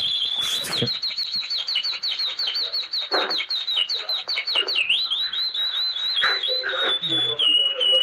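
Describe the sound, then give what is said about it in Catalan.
A person imitating a canary's song: rapid, high, warbling trills and chirps run almost without a break, with quick pitch flicks and short bursts of twittering, sounding convincingly bird-like throughout. “Vale, fes aviam el canari.”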